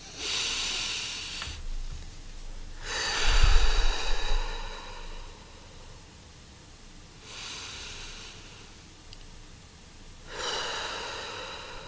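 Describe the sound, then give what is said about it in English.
Deep breaths taken in and let out together, a few long, airy breaths separated by quiet pauses, one fuller and louder than the rest. “Let's take a deep breath together right now.”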